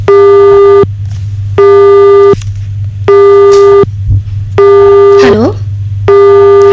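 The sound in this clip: A phone busy tone follows a cut-off call, with five loud, steady beeps in an even rhythm over a low hum. A brief voice overlaps one of the beeps.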